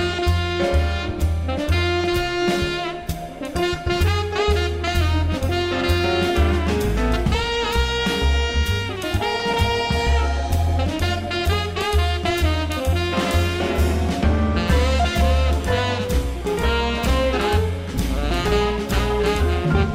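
Instrumental song from an album made as a tribute to Italy, with a steady pulsing bass under layered melodic tones. It plays loud and continuous throughout, with no singing.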